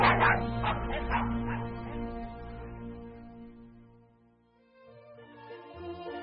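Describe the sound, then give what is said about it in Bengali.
Dogs bark and growl, opening with a few sharp yips before long, low, harmonic growling tones take over, dip, then briefly return; faint throughout. “তার সঙ্গের কুকুরগুলো এমন বীভৎস গর্জন করছিল”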